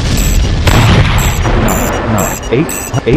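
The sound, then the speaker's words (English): Artillery shells explode in a video game: deep booms and rumbling blasts over a continuous noisy battle din. “The artillery is shooting at me. Bridge artillery ahead 7. Artillery 7. Standard shells.”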